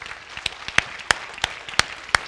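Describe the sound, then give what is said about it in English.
Church audience applauding: a soft bed of clapping with a few crisp, louder claps standing out in a regular rhythm, about three per second. “Does God deserve a hand of applause for that one?”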